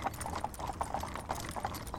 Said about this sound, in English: wake up to the noises of a horse-drawn cart driving over an uneven path.